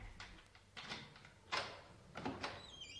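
A door being opened, heard as a few faint clunks and rattling bursts separated by low background noise, with no voices.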